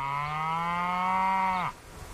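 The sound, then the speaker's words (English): A cow on a Washington cattle range gives a single long, low moo with a steady pitch, dropping off sharply at the end. “It's a nice, calm, easygoing, just cows mooing day.”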